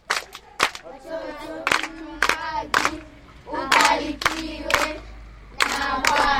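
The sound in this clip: Children clap to congratulate someone, in bursts of sharp, rhythmic hand claps mixed with loud chanting and cheering in unison, the bursts repeating several times.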